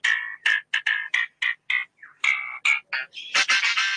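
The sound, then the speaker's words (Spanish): A lyrebird mimics electronic instrument sounds in a rapid series of short, bright, tonal bursts with brief gaps between them. The series ends in a cluster of louder, noisier, buzzy bursts. “Todo lo hace el ave. Es mentira, esto es el ave lira. Sonidos de instrumento electrónico, mirá.”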